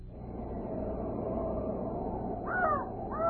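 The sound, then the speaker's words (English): A raven croaking gives two hoarse caws near the end, heard over a steady low rumbling background. “Listen. What? I only hear a raven croaking.”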